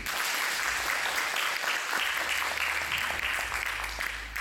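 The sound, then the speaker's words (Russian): A concert audience gives sustained applause: thick, continuous clapping that stays loud and even for over four seconds, with a faint low hum underneath. “Аплодисменты вам.”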